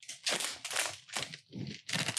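A plastic package wrapper being crinkled and ripped as someone struggles to tear it open: a handful of loud, crackling bursts of tearing and crumpling in an uneven rhythm, with short gaps between them.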